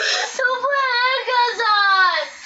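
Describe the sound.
A young girl sobbing while being restrained: a loud, continuous, high wavering wail with shaky catches and breaks, heard alone.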